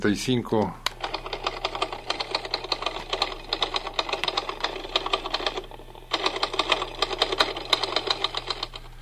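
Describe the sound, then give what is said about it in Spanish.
Rapid typing on an old 1935 model typewriter, a dense, steady clatter of keystrokes that runs for several seconds with a short pause about two-thirds through. A voice is heard briefly at the very start. “De nuevo te la presento de mi vieja máquina de escribir,”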